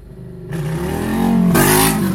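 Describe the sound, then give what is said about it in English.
A motorcycle revs and races past across a parking lot, its engine a steady, harmonic-rich drone that grows louder and slightly higher as it goes by. “They're revving their car up out there. Yeah, motorcycle's going by.”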